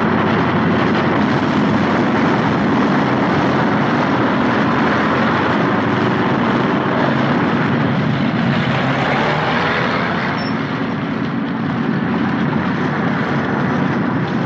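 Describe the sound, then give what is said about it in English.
Loud, continuous aircraft engine roar as a plane lands on a runway at an airfield, a heavy low rumbling drone that stays steady and unbroken throughout. “The last plane touches down on the runway.”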